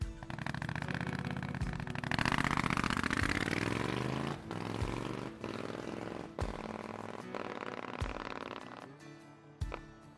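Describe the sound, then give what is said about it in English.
A black Triumph Scrambler 900 motorcycle engine runs loudly and steadily, its raspy note climbing in pitch as it revs, with several sharp pops and clicks scattered through the steady roar. “I ride a black Triumph Scrambler 900. Here's how it sounds.”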